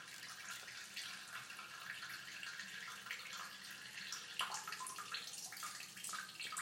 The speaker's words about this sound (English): If it means listening to water like this,